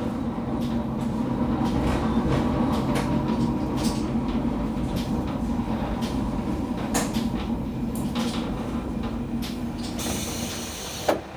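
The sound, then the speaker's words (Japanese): A train pulls into Rikuchū-Noda station with a steady, low rattling rumble and scattered clicks. Near the end, a brief hissing burst sounds. “まもなくソルトロード、陸中野田、陸中野田に到着します。”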